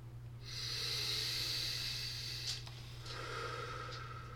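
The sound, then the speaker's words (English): A deep breath: a long, hissing, airy inhale that fades, followed by a softer second breath. The sound is faint, with a steady low hum underneath. “Let's take a deep breath.”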